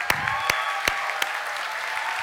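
A church audience applauding fathers standing during a service: steady, moderately loud applause with a few sharper individual claps that stand out.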